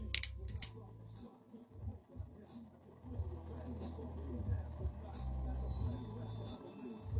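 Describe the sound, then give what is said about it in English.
A brand-new, sharp guillotine paper cutter slicing paper, heard as a few crisp cutting bursts near the start, with people talking through the rest. “Usually, you can tell by the edge from where the guillotine cut up. That fucker's so brand new and sharp. This is fun. All right, we're going to try it this way. Here we go.”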